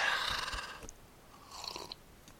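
Green tea is sipped in two soft slurping draws separated by a short pause, faint and close, with no talk over them.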